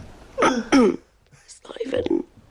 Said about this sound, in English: So, there's a performative cough.